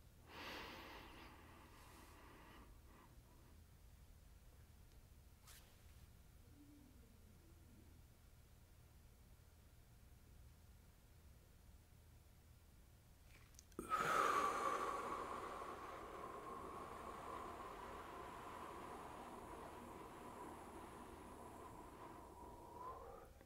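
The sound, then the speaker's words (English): Slow, controlled breathing from an inhale-hold-exhale exercise: a soft inhale, then a long silent hold, then a steady airy exhale that runs for about nine seconds to the end. The whole clip is faint and has no talk. “So the first step, breathe in for 6 seconds.”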